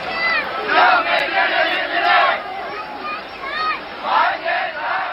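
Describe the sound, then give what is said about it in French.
Marching protesters chant slogans in unison, loud shouted phrases coming in repeated rhythmic waves over a steady crowd roar. “Et de nouveau, des cortèges arrivent, des slogans se font entendre.”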